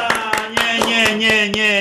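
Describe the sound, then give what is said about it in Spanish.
Rhythmic handclaps in a lively Spanish-language radio studio: about seven evenly spaced, sharp claps over a sustained voice. “¡Ya un aplauso! ¡Que se oiga en Colombia!”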